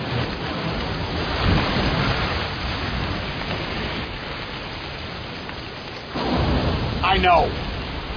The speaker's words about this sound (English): Look, the wind's still blowing in from the west.